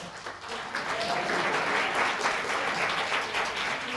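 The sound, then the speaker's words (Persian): Men in a lecture audience clap together in steady, dense applause that holds at an even level for the whole stretch. No speech is heard over it. “بعضی آقایون دست میزنن باریکلا، کلا آفرین”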